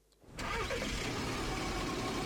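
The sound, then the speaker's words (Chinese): A car engine starts after a short quiet moment and then runs at a steady, even idle. The car is being driven in the early morning from a city out to a rural county about 100 km away. No voices are heard. “清晨，成都市农林科学院工程师刘季开车从成都市区赶往100余公里外的蒲江县”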